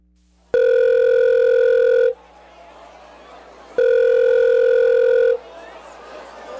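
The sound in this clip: Two long electronic telephone rings, each a loud, steady buzzing tone lasting about one and a half seconds. A pause with faint background noise separates them.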